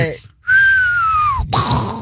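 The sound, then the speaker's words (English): A person attempting to whistle produces one sustained, thin tone that holds for about a second, drifts slightly lower and then cuts off abruptly. “He's trying to whistle,”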